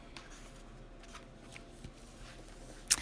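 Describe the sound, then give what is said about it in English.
Rune cards are drawn from a deck in a few soft, faint shuffling rustles, ending in one sharper snap of card handling. “So, for this week, I drew two cards for us”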